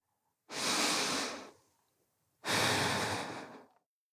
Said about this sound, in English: And then, suddenly, I stopped. I breathed in and out slowly.